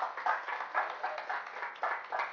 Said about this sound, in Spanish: Si va un aplauso, dáselo bueno al Señor Jesucristo.